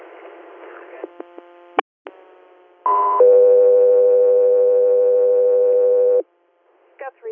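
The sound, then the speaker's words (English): Radio dispatch alert tones paging an air medical crew to an interfacility transfer: a few short clicks and beeps, then a brief tone that steps into one long, steady, loud tone lasting about three seconds before cutting off. “3 Air, standby for tones.”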